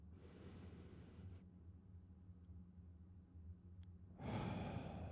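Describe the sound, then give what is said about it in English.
Slow, faint breathing: a long soft exhale fades into a quiet pause, then another breath swells up near the end. “We breathe. We breathe.”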